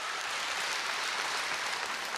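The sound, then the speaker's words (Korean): Audience applause at an anniversary concert following a traditional Korean Buddhist monk's dance on stage: a dense, steady wash of clapping that holds at an even level throughout, with no voices. “자명 스님 그리고 이 승무를 전해준 신현우님에게도 큰 박수, 이 무대가 떠나가듯 큰 박수 보내주시기 바랍니다.”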